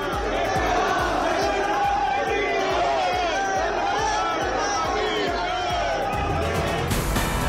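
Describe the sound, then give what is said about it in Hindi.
Crowd of the Indian community chanting slogans for Prime Minister Modi outside a hotel in Italy: a dense, continuous mass of many shouting voices, loud and steady throughout. “Italy में hotel के बाहर लगे मोदी मोदी के नारे, प्रधानमंत्री मोदी की एक झलक पाने के लिए उमड़ा भारतीय समुदाय।”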